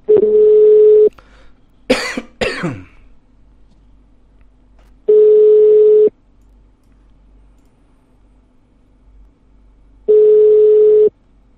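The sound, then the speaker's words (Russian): Three long, steady telephone ringback tones of about a second each, evenly spaced roughly five seconds apart, with a sharp cough and throat clearing between the first and second tones. “Так, набор идет.”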